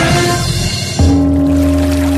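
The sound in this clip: Water is stirred and sloshed in a continuous swishing rush for about a second, then gives way to a steady low hum.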